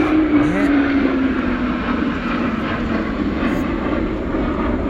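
Airplanes flying overhead make a loud, steady, rushing engine roar that fills the whole stretch without a break, holding the same broad drone from start to finish.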